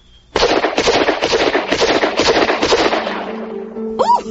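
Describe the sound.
Gunfire from a big man's big gun: a loud, rattling series of rapid shots runs for about three seconds, then breaks off into a low steady hum with a brief rising tone at the end.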